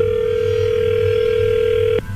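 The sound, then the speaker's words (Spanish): A telephone line tone plays while a call is being dialed again, a steady, even mid-pitched tone over a low hum that stops abruptly near the end. No one speaks. “A ver, permíteme, vamos a marcarle de nuevo y tú le contestas.”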